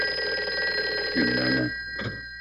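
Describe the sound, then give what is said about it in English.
A telephone rings in an old radio drama, a steady trilling ring over a constant electrical hum, with brief louder bursts toward the middle and end. “Well, Chief, I guess there's nothing left for us to do but to stay here and wait for that phone call.”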